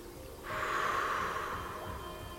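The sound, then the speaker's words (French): A person slowly blows out a long breath, a soft airy hiss that starts abruptly and holds steadily for about two seconds, easing slightly toward the end, with no talk. “Tant que nous le voyons, nous continuons à souffler.”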